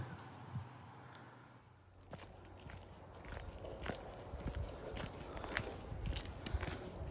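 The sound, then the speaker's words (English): Footsteps walk along a canal towpath near Bathampton Mill. Many soft, irregular crunching steps are heard alone and faint, with a few sharper scuffs among them. “We're now walking along the canal towpath. It's about four miles from Bathampton Mill”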